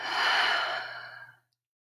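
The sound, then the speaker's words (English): A long breath exhaled out through the mouth during a guided breathing exercise: one soft, airy rush that swells quickly, holds, then tapers away to silence, with no talk over it. “Inhale through your nose. Exhale out your mouth.”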